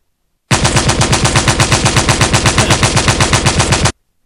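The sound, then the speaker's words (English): Machine gun fire sound effect: a sustained, loud burst of rapid, evenly spaced shots lasting about three and a half seconds, starting and stopping abruptly. “Machine gun, please.”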